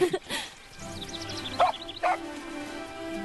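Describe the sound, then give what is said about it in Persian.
A dog gives a few short, sharp yips and barks, with high whimpering whines in between, over a faint steady background. “اسمشو میذارم پرنس تریان، یه سگ قولیاب فوق‌العاده”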